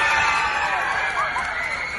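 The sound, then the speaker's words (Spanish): Children screaming and shouting excitedly at a school as film stars visit, a continuous shrill wall of high-pitched voices held at a steady, loud level throughout. “Gritos y nervios, locura desatada por ver de cerca a Mr. Fantástico.”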